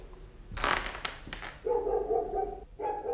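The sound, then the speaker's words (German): Dog barking in a radio play, a few sharp, loud bark bursts close together early on, followed by more sustained sound with no speech. “Mama, der Mino bellt schon wieder. Nee, lass ihn bellen.”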